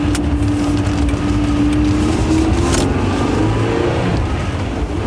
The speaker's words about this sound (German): Jetzt fährt er los. Und wir? Was machen wir? Fahren Sie bitte hinterher